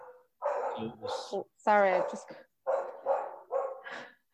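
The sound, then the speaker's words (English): A dog barks wildly in loud, closely spaced bursts, with one longer, tonal yelp that drops in pitch partway through. “I just got a really big fright because my dog is barking like a nutter and some bang happens.”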